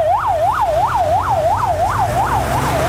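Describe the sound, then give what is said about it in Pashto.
Ambulance siren, from ambulances standing by to carry the dead and injured after floods: a loud, rapid wail that rises and falls about eight times over a low rumbling background. “د مړو او ټپیانو لیږدولو ته امبولانسونه تیار دي.”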